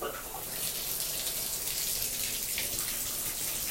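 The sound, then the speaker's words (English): Tap water runs for hand washing, a constant rushing hiss that holds an even level from start to finish. “It's hand washing time.”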